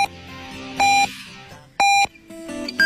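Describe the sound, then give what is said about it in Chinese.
Radio hourly time signal marking midnight: a series of short, loud, high pure-tone beeps spaced about one second apart, standing out sharply above quieter background sound, with no talk. “北京时间0点整”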